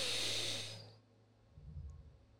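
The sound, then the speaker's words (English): Deep breathing exercise: a strong, airy exhale hisses loudly and fades over about a second, followed by a softer, lower breath. “So what I was giving you is short dynamic breaths. You can also do breaths where it's like”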